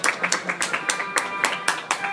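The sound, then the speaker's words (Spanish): Scattered clapping greets a Tusken Raider cosplayer at a Star Wars panel during a comic convention, a run of sharp, evenly spaced claps over faint voices. “Damas y caballeros, tenemos aquí a un Tusken Raider. ¡Un Tusken Raider, por favor! ¡Fuerte aplauso para el Tusken Raider!”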